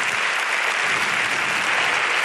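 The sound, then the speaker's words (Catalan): Loud, sustained applause from an audience at a gala ceremony, a dense and unbroken wash of clapping at an even level throughout. “Que no para d'aplaudir.”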